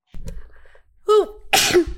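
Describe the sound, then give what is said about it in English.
A single human sneeze: a short voiced in-breath builds up, then one loud, harsh, explosive burst of breath and voice ends it, heard alone. “Bless you. That was my sneeze.”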